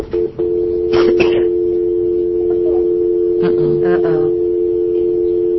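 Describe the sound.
A steady telephone dial tone hums through nearly the whole clip, briefly cutting out near the start, while people talk over it.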